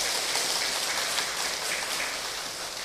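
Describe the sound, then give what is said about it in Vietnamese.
A crowd applauds at a Vietnamese Buddhist ceremony welcoming new members into the Buddhist community. The clapping is a dense, steady patter that stays even throughout and eases off slightly at the end. “Hãy tiếp tục một tràng vỗ tay”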